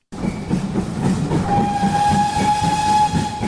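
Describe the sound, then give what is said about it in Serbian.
Steam locomotive whistle on an old narrow-gauge railway in former Yugoslavia: a single steady, high whistle begins midway and holds for more than a second over the low, rumbling clatter of the running train. “Pisak Ćirine lokomotive, oblaci pare i uskotračna pruga rijetko se mogu vidjeti i doživjeti kao turistička atrakcija.”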